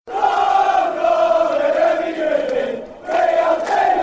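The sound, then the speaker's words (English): A football crowd roars after a goal in the Merseyside derby, a dense, loud, sustained cheer that dips briefly near the end before swelling again. “Oh, oh, what a goal! What a goal! Yes. Unbelievable finish to the Merseyside derby!”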